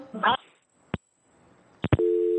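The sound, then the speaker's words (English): Telephone line tone after a radio call-in caller drops: a brief burst of voice, then a few sharp clicks, and finally a steady tone sounding alone. “I think the caller dropped, but let's carry on.”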